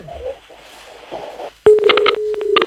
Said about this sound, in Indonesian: terputus teleponnya sudah Pak